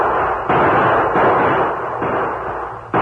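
Gunshots traded in a Western shootout between lawmen and outlaws among rocks, boulders and cottonwood trees: a few heavy blasts boom out one after another over a continuous rumbling wash, with no voices.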